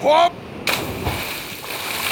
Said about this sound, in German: Bleibt hier und schaut gut zu, wie ich schwimme.